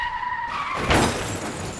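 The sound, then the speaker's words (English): A vehicle skids and crashes into a yacht: a brief loud skid gives way to a sharp shattering impact about halfway through, followed by a rough, decaying crunch. “Oh, there's the yacht. Are you going to break? No. Oh, we're going to crash. Oh, no. Oh, brace for impact.”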